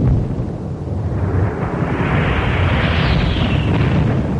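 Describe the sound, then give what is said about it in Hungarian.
A grenade explosion at the front in a radio drama of soldiers under French attack: one loud, sustained roaring burst with a long rumbling tail, heard alone without voices. “Gránát! Megint egy.”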